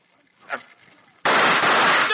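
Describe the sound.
A single loud gunshot in a radio drama bursts in suddenly after a brief faint voice, its harsh blast sustained through to the end.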